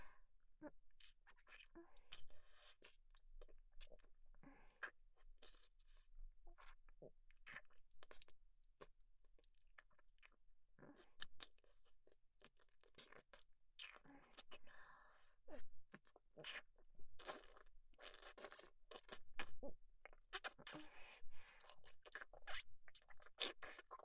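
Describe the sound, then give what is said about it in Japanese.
ASMR licking sounds: many soft, close, wet mouth smacks and clicks in irregular bursts, with quiet whispering at times. “じゃあ、舐めるね。”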